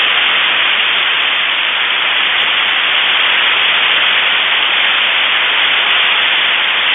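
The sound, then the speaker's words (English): Radio telescope signals played through an amplifier and speakers come out as a loud, steady hiss of static, like white noise, unchanging for the full seven seconds with no voices. “you can put it through an amplifier and send it through a pair of speakers, and I recorded that. And this is what, if we sat there like Jodie Foster in Contact with our headphones on and we listened to the signals from our radio telescopes, this is what we'd hear.”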